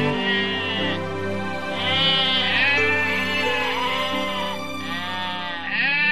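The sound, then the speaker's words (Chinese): Sheep bleat in long, quavering calls that overlap and waver over a steady sustained tone, continuing without a break. “有一个牧羊人，他有一百只羊，他非常的爱他的羊。”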